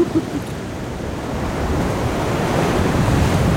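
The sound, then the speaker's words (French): Ocean waves breaking at a rarely working Breton surf spot under a big six-metre swell on a rising tide: a continuous broad roaring wash that swells slightly louder, mixed with wind buffeting the microphone. “Mais je pense que les vagues vont se resserrer avec la montée.”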